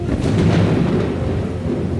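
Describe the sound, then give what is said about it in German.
Artificially made rain from a technology demonstration, heard under an umbrella, with a thunder-like rumble; a loud, steady, deep roar with a hissing wash above it, no voices. “Wow, es regnet. Irre. Ein weiteres Wunder der Technik.”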